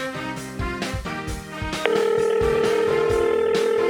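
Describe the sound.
An outgoing phone call to a friend rings out over background music: partway through, a steady, unbroken electronic tone starts and holds evenly to the end.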